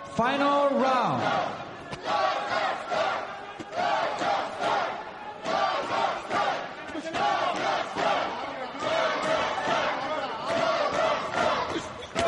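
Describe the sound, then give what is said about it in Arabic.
Kazakh fans shout and chant together for athlete Oralbek Aibek. The loud mass of voices comes in repeated rhythmic surges across the whole stretch. “كازاخستان الجماهير الكازاخية تشجع أورال بي آيبك”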